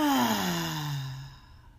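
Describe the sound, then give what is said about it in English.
A deep exhale released as a voiced sigh during a guided morning breathing exercise, starting loud and gliding steadily downward in pitch before fading out. “and that is to get as much of the stale or toxic air that accumulates when we sleep out of our lungs. So let's breathe in and out.”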